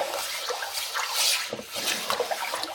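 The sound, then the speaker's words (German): Dishes being washed in a kitchen sink, a cutting board after deep plates: a steady hiss of running tap water with splashing and light scrubbing and knocking noises throughout, no talking. “habe ich jetzt hier schon zwei tiefe Teller abgewaschen und bin jetzt beim Schneidbrett angekommen. Den Wasserhahn aus dem Weg gedreht.”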